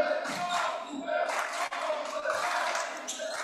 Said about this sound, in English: A little bit of an Owls crowd here screaming for the defense.